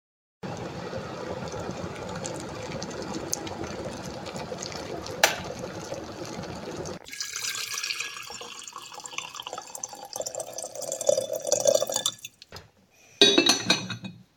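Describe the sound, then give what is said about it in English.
Water pours and splashes steadily as a fresh pot of tea is made. After several seconds the flow turns to a changing trickle and dripping, and a short louder burst of liquid comes near the end. “Any more tea in the pot? No. It's empty. I'll make a fresh one.”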